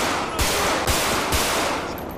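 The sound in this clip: Three loud, sharp gunshots ring out during a police shootout in a video game. They come at evenly spaced intervals over a constant background hiss.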